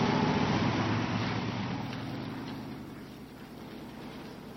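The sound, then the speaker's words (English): A car drives off with a steady rumble of engine and road noise that slowly fades over several seconds, without voices. “and put her in the car. They drive off.”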